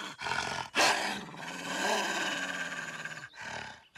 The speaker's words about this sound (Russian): Воўк стаў на парозе зайкавай хаткі і крычыць на лісічку.